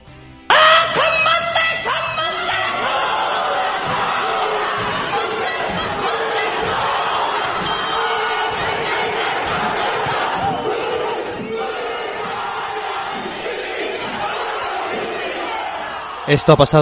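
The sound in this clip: A group performs a haka ritual chant in the New Zealand Parliament. Many voices shout in loud, forceful unison with rhythmic pulses, and the chanting holds steady before a brief burst at the end.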